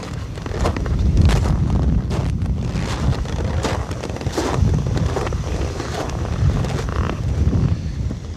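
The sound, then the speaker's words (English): Footsteps crunching at the South Pole, buried under steady roaring wind that buffets the microphone throughout. “That was the sound of me walking around the world. I'm standing directly on the South Pole of the Earth right now.”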